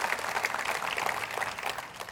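Applause from a church audience, softer and moderately dense, with individual claps faintly distinct in a steady patter across the whole clip.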